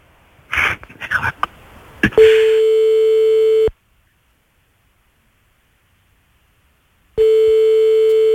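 A ringback tone sounds on a French phone call that goes unanswered: two long, steady, mid-pitched tones separated by several seconds of silence, after a couple of seconds of brief noisy bursts.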